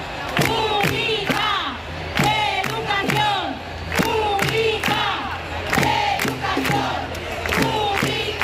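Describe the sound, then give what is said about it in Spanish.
A crowd of striking teachers chants at an education strike march through central Madrid, with many rhythmic phrases shouted in unison and repeated in a steady cycle over a constant crowd murmur. “Este es el sonido de la manifestación que a esta hora va desde Atocha hasta Sol, en el centro de la capital.”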